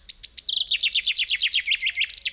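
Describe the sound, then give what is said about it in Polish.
Chaffinch song: a quick series of many bright, high downward-sweeping notes repeated in a steady rhythm, ending in a short twisting flourish, heard alone. “Teraz pora na ziębę”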